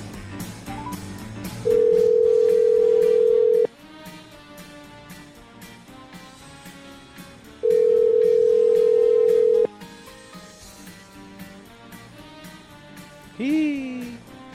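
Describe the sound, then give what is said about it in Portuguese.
Two long, steady telephone ringback tones, each about two seconds and several seconds apart, sound over background music as an outgoing call is placed. “Vamos aqui tentar ligar, vamos ver se ele vai atender ou não.”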